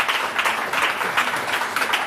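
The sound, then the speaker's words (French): Applause, a dense, even patter of many hands clapping together at steady loudness throughout. “on applaudit déjà nos décodeurs pour ces magnifiques définitions.”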